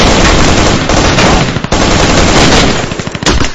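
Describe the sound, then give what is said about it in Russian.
Several automatic rifles fire in an audiobook sound effect, loud, dense and sustained, the bursts merging into continuous gunfire with individual shots standing out toward the end. “как мы сразу попали под шквальный прицельный огонь, стволов из 5, не меньше.”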